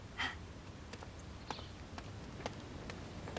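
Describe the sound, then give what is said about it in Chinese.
Donkey hooves clopping as the animal is led into a county government compound, a few soft, faint clops spaced unevenly at a slow walking pace. “敢把毛驴牵进县委大院的，也就是你了。”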